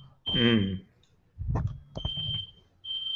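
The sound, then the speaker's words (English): A home smoke alarm goes off just outside a bathroom, set off by steam from a hot shower. It gives a few shrill, high-pitched beeps, spaced apart and mixed with people talking. “Hold on, that's our fire alarm.”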